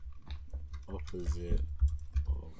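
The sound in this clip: Typing on a computer keyboard: a few soft, irregular keystroke taps, fairly quiet, with a voice speaking briefly partway through.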